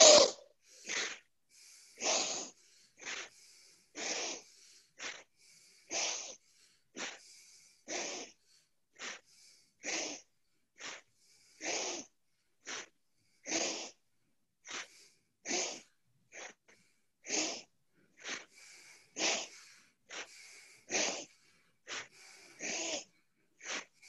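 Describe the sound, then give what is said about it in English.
Rapid, forceful breaths during a breathing exercise, about one per second. A long, steady series of loud, airy bursts, each inhale and exhale rushing out in an even rhythm with no talking. “Inhale, exhale. So, yeah, let's do it. One breath per second.”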